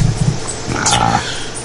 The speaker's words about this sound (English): I had to deal with my little puppy dog.